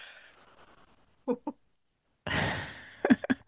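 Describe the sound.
A group takes a deep breath together before a show: a couple of short vocal bursts, a pause, then a breathy rush of air lasting under a second, followed by a few quick voiced sounds.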